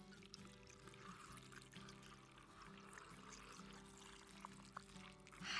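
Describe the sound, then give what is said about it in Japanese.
White liquor is poured into a jar layered with rock sugar and lemon, making a faint, continuous trickling pour that runs steadily throughout without a break. “え氷砂糖レモン氷砂糖レモンとこう交互に入れていくんですね。はいいい感じに層になって綺麗ですね。でホワイトリカーを注いでいきます。”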